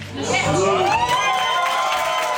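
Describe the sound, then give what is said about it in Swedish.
Crowd cheering and whooping at a Social Democrats election night party in Sweden, loud overlapping shouts and yells rising into a sustained, excited roar. “så att det var stort jubel också hos Socialdemokraterna.”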